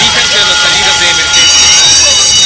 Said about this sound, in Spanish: Una alarma contra incendios dentro de un edificio.